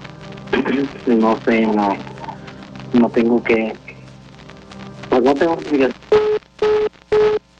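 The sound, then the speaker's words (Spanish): A busy tone follows a dropped phone call: people talk, then three evenly spaced, steady mid-pitched beeps sound alone. “Híjole, se nos cortó ahí la llamada.”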